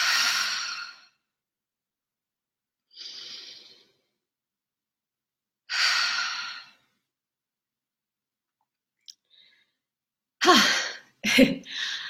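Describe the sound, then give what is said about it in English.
Deep breaths drawn in through the nose and let out through the mouth, heard as a few loud, airy breath sounds separated by long pauses, followed by a voice speaking briefly at the end. “So let's take a deep breath in through our nose and out through the mouth.”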